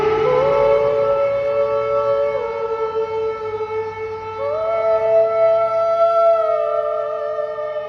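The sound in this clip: Air raid sirens wail without pause, a loud sustained tone rich in harmonics that steps upward in pitch a couple of times and holds steady between the steps. No voices are heard.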